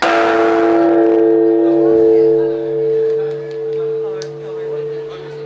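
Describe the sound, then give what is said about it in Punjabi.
A giant Buddhist temple bell in Tokyo, struck at midnight with a rope-hung wooden pole, rings as a deep, sustained resonant hum of steady low tones that lingers and gently pulses, with faint background sounds. “ਅੱਧੀ ਰਾਤ ਨੂੰ ਲੋਕਾਂ ਨੇ ਲੱਕੜੀ ਦੇ ਇੱਕ ਖੰਭੇ ਨੂੰ ਰੱਸੀ ਨਾਲ ਲਟਕਾ ਕੇ ਵਿਸ਼ਾਲ ਘੰਟੀ ਨੂੰ ਵਜਾਇਆ।”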